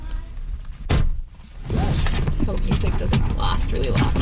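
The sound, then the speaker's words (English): A car setting off on a drive: a single heavy thunk near the start, then a steady rumble of engine and road noise. “She takes me on a drive.”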